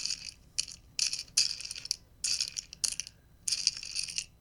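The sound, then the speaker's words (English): Jelly beans shaken in a candy bowl make a series of short, bright rattling bursts separated by brief pauses, moderately quiet and with no voices. “No, it's jelly beans in a candy bowl.”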